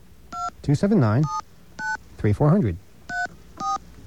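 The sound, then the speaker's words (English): Telephone keypad touch-tones entering a phone number into an automated 24-hour account information line: five short, steady beeps spaced irregularly, with a voice talking between some of them. “we're going to enter our phone number”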